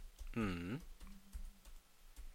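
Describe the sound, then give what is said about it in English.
Soft clicks of typing on a computer keyboard are faint and sparse, with a short voiced sound briefly over the keys. “I'm just kind of typing lost media and fine.”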